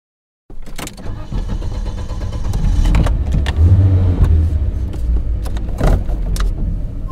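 Two people get into a black Porsche SUV: sharp clicks and knocks, with jangling keys, over a low engine rumble that swells and then holds steady.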